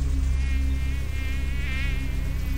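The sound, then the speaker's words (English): A swarm of insects buzzes in a hot, putrid marsh, a loud, steady droning hum that holds throughout with a slight wavering in pitch. “Here you find a green zone, putrid, nauseating, where thousands of insects move around”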